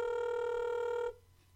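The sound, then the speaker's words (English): A telephone rings while a call is being dialed. One steady, buzzy ring tone holds for about a second and then cuts off abruptly, leaving faint background hiss. “Dialing him up right now, gonna keep this one going.”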